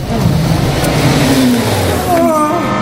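A car engine starts up and revs as the car in front pulls away in traffic, a steady mid-pitched motor drone that rises in pitch toward the end.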